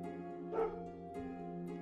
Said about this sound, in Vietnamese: Tiếng chó sủa văng vẳng truyền đến từ đâu đó.